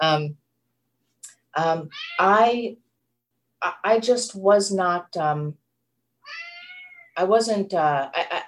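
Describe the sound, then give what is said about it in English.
A male house cat meowing over and over: many insistent, tonal meows of varying length separated by short pauses, some brief and others drawn out. “that's my cat over here. He's got something to say about all this. Sorry about that.”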